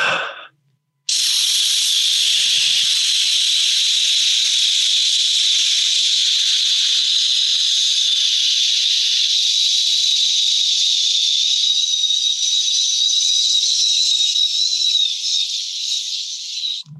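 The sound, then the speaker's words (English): A voice imitates a children's sleep sound machine, producing a steady, loud, breathy hiss of white noise held for about sixteen seconds and easing slightly near the end. “You know what works for my kids? We have gotten accustomed to having them sleep with a sound machine. You know, and we talked about this back in the day. So I'm going to just go ahead and give you about 30 seconds of a.”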